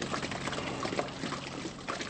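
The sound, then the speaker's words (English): Manure slurry in a dairy barn, pushed by scrapers over a floor slot, drops into a 250,000-gallon pit with a continuous, dense splashing and pouring rush that holds steady throughout. “As the scrapers pass over a slot in the floor, the load drops over the edge and down into a 250,000-gallon pit.”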